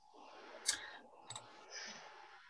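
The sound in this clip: Faint computer mouse clicks, a few sharp quiet ticks close together against a soft background hiss.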